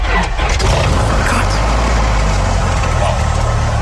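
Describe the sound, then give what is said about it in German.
A Cessna 172 Skyhawk's propeller engine runs as a loud, dense, steady roar that holds at one level throughout. “können wir den Motor starten? Das können wir gerne machen, ja. Okay. Dann verschiedene Knöpfe gezogen und gedreht.”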